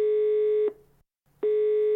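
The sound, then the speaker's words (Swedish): A telephone ringback tone sounds while someone places a call: a steady mid-pitched tone that cuts off, leaves a short silent gap, then starts again. “Ska vi ringa honom på en gång, tycker du? Ja, vi gör det.”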